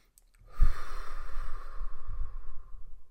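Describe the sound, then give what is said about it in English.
One long, deep breath, heard alone: a slow, airy exhale that swells quickly and then gradually fades over about two and a half seconds. “So one of them was take a deep breath, right?”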